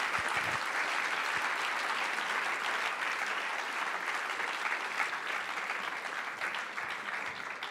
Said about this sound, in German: Großer Applaus in Abwesenheit für Sharon Dodua Otto und Adas Raum.